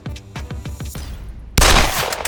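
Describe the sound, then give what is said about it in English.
Pistol shots ring out in an audio drama as a rapid string of sharp cracks, followed by a louder, sustained burst of harsh noise. “Coach Persephone observed Nick as he lowered his pistol. You actually managed to miss everything. By sheer chance alone, you should have at least hit a building.”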